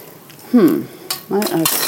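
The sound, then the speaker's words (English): Spoon stirring sugar into a liquid until it dissolves, giving a few short metallic clinks and scrapes against the container in two irregular bursts, moderately loud. “let us stir with this so we get all of it off. Stirring to make sure that all of the sugar is dissolved,”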